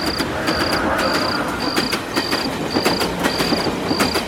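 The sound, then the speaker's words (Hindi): A train passes in the distance beyond trees, a low steady rumble with faint rhythmic clacks, while insects keep up a regular pulsing chirp above it. “तभी दूर से train की आवाज सुनाई दी”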